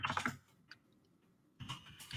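Rapid clicking of typing on a computer keyboard during an online search: a quick flurry of keystrokes, a few scattered taps, then another flurry, all fairly faint.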